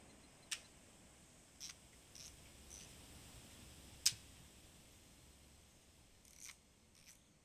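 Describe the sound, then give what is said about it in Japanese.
Camera shutter clicks as several photos are taken: a handful of soft, dry clicks at irregular intervals, two of them sharper, alone against a faint hiss. “じゃあまた何枚か撮るよ。”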